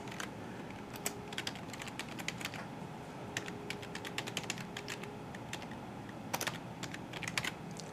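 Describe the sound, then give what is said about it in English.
Fingers tap on a computer keyboard, producing many quick, crisp key clicks in uneven bursts and short pauses, fairly quiet and with no voices. “I'm actually going to type this one in.”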